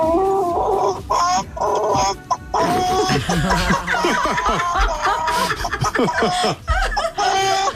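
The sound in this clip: A man imitates a chicken in a jokey impression, producing loud, rapid clucks and squawks in choppy bursts, with cackling, laugh-like breaks between them.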